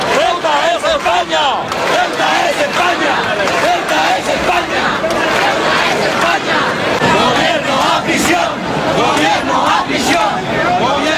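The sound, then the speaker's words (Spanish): Around 7,500 people rally in Plaza de Baix, Elche, in support of Ceuta: a dense, loud, unbroken roar of shouting and chanting voices that holds steady throughout. “Ahí lo escuchan alrededor de 7.500 personas. Según datos de la policía local, se concentraban ayer en la Plaza de Baix de Elche en apoyo a Ceuta”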